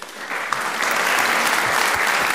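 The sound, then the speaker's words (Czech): Applause that includes Jiří Suchý clapping, quickly swelling into a steady, dense wash of many hands that holds evenly to the end. “Tleská Jiří Suchý, mistře legendo.”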